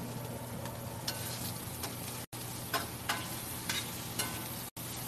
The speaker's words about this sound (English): Now we're going to let this cook down a little bit more.